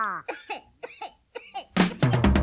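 A run of short coughs, several voiced hacking bursts in quick succession, ending in a louder, rougher stretch.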